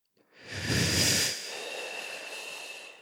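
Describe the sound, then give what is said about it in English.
Breathing in through pursed lips, like drawing air through a straw: one breathy inhale of about a second, followed by a fainter, steady hiss that trails on to the end. “if you breathe in through your lips in this case,”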